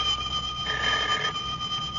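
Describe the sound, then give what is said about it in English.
An old-style telephone rings with a steady, bright electronic tone over a constant hiss, growing stronger for a stretch in the middle and then easing back. No voices are heard. “a feller can't sit down for 5 minutes without that dad-blamed telephone ringing”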